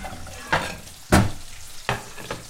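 Banana slices frying in butter in a pan, with a few sharp bursts of stirring and sizzling over a low, steady crackle.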